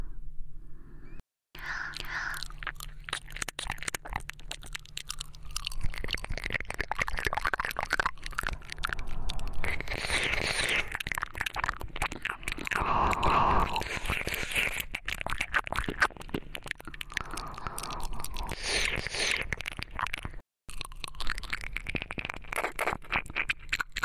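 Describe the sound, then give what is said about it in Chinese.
Intimate mouth sounds of someone nibbling and tasting an ear: many soft, wet clicks and smacks layered with whispering throughout, a dense crackly texture that continues almost without pause, broken by two brief silences. “想一口把它吃掉。学弟，不介意学姐品尝一下你的耳朵吧？”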